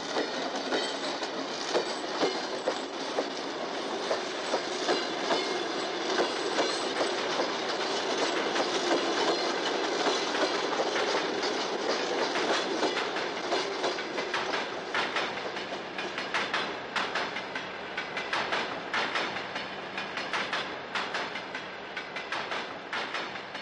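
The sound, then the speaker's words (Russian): A train pulls away, its wheels beating a steady clickety-clack on the rails amid a continuous rolling rumble, with touches of metallic wheel squeal throughout. “Состав трогается.”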